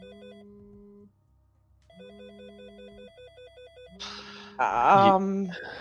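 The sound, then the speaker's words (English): Electronic phone ringtone for an incoming call during a tabletop role-playing game session: a warbling, trilling tune over a low buzz plays in two bursts of about a second each, then a louder, noisy jumble of sound covers the final part. “it is a phone call. Okay, I'll answer that.”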